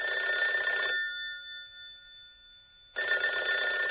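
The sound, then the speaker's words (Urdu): An old dial telephone's bell rings in two bursts separated by a pause of about two seconds, a bright, rapidly trilling metallic ring with nothing else heard. “Rain dial کیے گئے phone کی گھنٹی کی آواز ہے.”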